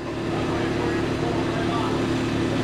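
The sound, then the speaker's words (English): A small forklift rolls across a dirt and gravel basement floor at a city hall, loading steel beams. Its engine makes a steady, unbroken mechanical hum with a low drone that holds even throughout. “A small forklift moves along what's currently a dirt and gravel floor to load in steel beams from an outdoor staging area.”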